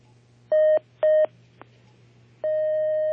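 Telephone connecting tones as a phone-in call is put through: two short beeps and a faint brief blip, then a long steady tone held to the end over a low constant hum.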